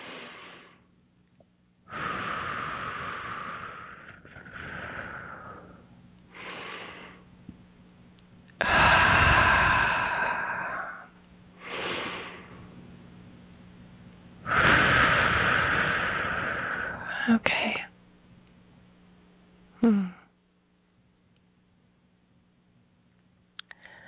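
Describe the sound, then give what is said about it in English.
Slow, deep breaths drawn in through the nose and let out through the mouth during a guided relaxation exercise: several long, soft airy breaths separated by quiet pauses, with no talking. “we'll take some nice deep breaths in through our nose and out through our mouth.”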